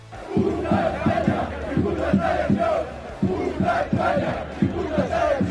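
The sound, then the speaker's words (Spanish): A football crowd chants at the Camp Nou stadium: loud massed voices in rhythmic unison, with repeated short bursts of syllables in a steady pulse throughout. “Las esteladas aparecieron precisamente por la actuación policial en Elche con cánticos insultando a España y a la selección. Escuchemos lo que se cantó en el Estadio Camp Nou.”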